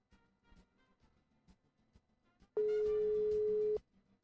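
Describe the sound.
A telephone ringing tone sounds on a call as one steady, even electronic tone of about a second, loud against faint clicks and low background noise.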